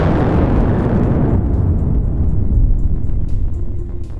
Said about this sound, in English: The name of the origin of this sound was Krakatoa.